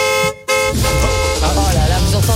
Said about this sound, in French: Ça, c'est le bruit de la voiture gratuite, ça.